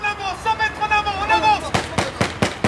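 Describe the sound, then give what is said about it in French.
Blank rounds fire in rapid bursts during a French military urban combat exercise with ambushes and smoke. A raised voice comes first, then several sharp, loud gunshots crack in quick succession. “Embuscades, tirs à blanc, fumigènes en guise de bombardement, des observateurs désignent les morts et les blessés.”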